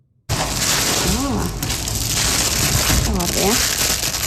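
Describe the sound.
Crinkling and rustling packaging comes as 400 brand-new pairs of solar eclipse glasses are unpacked from a box at Atlanterhavsparken in Ålesund, a dense continuous crackle that starts abruptly, with brief faint voices over it.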